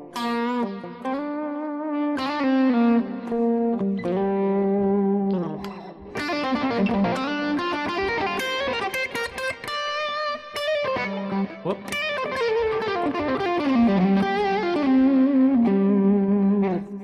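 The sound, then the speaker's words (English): An electric guitar solo played with volume and pickup changes and varied picking textures: a distorted, effects-laden tone running through continuous melodic lines with sliding and bending pitches. “I love to play like this because it really is a lot of fun, with volume changes and pickup changes and picking textures.”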